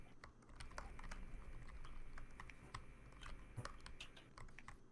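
Typing on a computer keyboard, many quick, irregular key clicks at a soft level over a steady low background hum.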